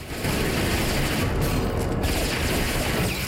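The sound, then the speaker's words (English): Automatic gunfire in a film shootout, fired from a staircase as henchmen scatter: a dense, continuous rattling barrage that stays loud and steady from start to finish. “Sonny appears on the staircase and opens fire with an automatic. The remaining henchmen dash for cover.”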